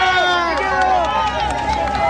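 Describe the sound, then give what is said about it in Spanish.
Dense crowd hubbub of many people walking and pushing along beside president-elect José Antonio Kast: a steady, loud mass of overlapping voices and shuffling with no pauses. “El audio ambiente que escuchas, Katy, que escuchan auditores, sí. Hay gente que nos empuja porque acá van avanzando con nosotros en la medida que nosotros también tratamos de seguir el paso del presidente electo José Antonio Kast.”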